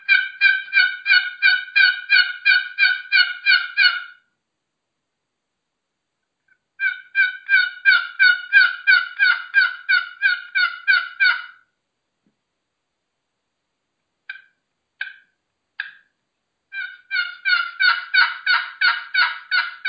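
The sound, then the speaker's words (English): Turkey yelping made on a one-sided box call comes in three runs of rapid, evenly spaced yelps separated by silent pauses, with three short isolated notes between the second and third runs. “That's the one-sided box call.”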